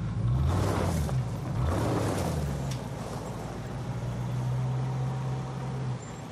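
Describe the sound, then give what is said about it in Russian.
Engine of a yellow Ford Crown taxi pulling away to follow an SUV, a low steady hum with a shifting tone early on that settles into an even drone, moderately faint with no voices. “Тронувшись, такси едет за внедорожником.”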